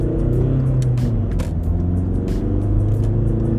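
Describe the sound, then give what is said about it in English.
A car accelerating hard in first gear gives a loud, dense engine drone with a strong low rumble and faint ticking on top. It holds steady through the whole stretch. “Oh, this is gonna be dangerous. Get into first gear.”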